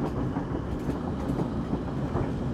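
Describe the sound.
Steady rumble of a train carriage rolling along the rails, a continuous low roar with a broad hiss above it and no voices.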